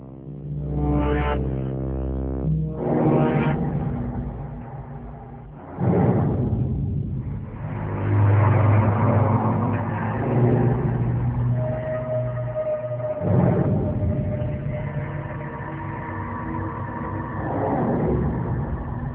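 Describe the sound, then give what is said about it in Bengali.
Engine rumble of a car being driven on the way to a bus station in Long Beach, California. The drone is steady and muffled, with a few revving surges and a whooshing swell partway through. “Frank Turner তার নিজের গাড়িটা চালিয়ে যাচ্ছেন গন্তব্য ক্যালিফোর্নিয়ার long beach bus station.”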